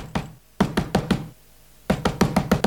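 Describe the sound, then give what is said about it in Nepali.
Knocking on the wooden door of Noah's ark: a single knock, then a quick run of sharp hollow raps, a short pause, and another fast run of knocks. “मानिसान आइकन डोङ्गाको ढोका ठठाए लागि”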